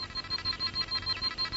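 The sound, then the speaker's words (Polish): An electronic alarm goes off in a Dragon Ball Z cartoon: a high, thin beeping tone that pulses many times in a fast, steady rhythm, with no voices over it. “Alarm? Co to ma znaczyć? To niemożliwe.”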